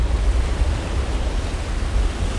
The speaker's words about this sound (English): It's a nice little rapid. You get splashed here and there.